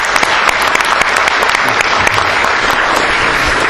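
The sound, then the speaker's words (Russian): Applause from an audience at the close of a season of scientific round-table discussions: dense, overlapping claps that hold at a steady, fairly loud level for the whole stretch. “Давайте похлопаем всем выступающим.”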